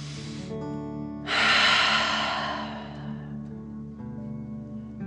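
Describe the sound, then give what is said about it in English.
A deep breath in and out through the mouth in a fire-breathing exercise: a short airy intake, then one long, forceful, breathy exhale that swells and fades, over soft sustained background music. “pretending you are breathing fire. Ready? Deep breath in and out.”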